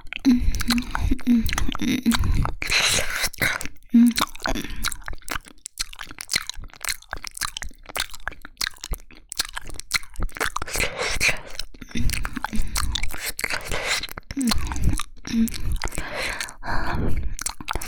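Chewing and eating food: many crisp crunching bites and wet chewing sounds run throughout, close and loud, with a few short hummed murmurs between mouthfuls.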